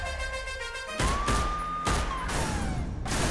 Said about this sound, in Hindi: I have been shot.